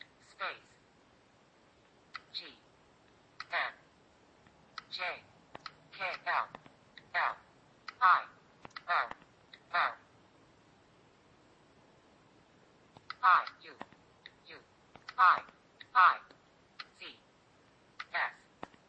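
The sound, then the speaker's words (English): Taps and clicks from typing letters on a phone's on-screen keyboard using left and right flick gestures, many short sharp clicks in uneven bursts separated by brief pauses. “I'm just going to type the space, and we'll just type the word Lewis then.”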